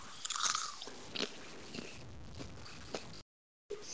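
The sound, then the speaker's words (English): Popcorn being chewed during an ASMR segment: a few crisp crunching bites over soft, steady mastication, fairly quiet, then a brief silence before chewing resumes. “let's put the popcorn away”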